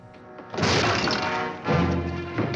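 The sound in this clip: A bedroom door is forced open with two loud, crashing impacts, the first about half a second in and the second roughly a second later, over a steady humming tone.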